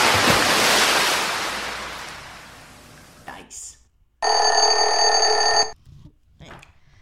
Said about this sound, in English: Is that for the duck pond? That's the swimming pool.